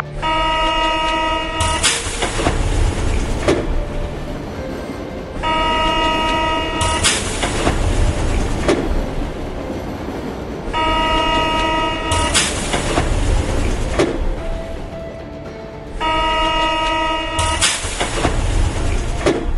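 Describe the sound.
Trains at a busy railway station: steady rumble and clatter of rail cars, broken by four long, loud, tonal horn blasts at regular intervals, with sharp bright bursts of noise following each one.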